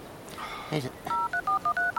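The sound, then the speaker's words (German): Telephone keypad tones sound as a number is dialled, with a quick run of about six crisp, clear beeps of slightly differing pitch following a brief, softer shuffling sound. “Könntest du vielleicht Bärbels Nummer wählen?”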